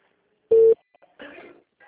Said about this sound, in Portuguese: Eu tô ligando aqui agora.